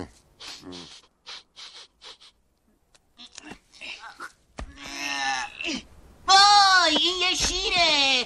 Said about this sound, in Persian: وای، این یه شیره. وای، فرار کن، یالا تکون مخواد. فقط یه شیر کوچولوه.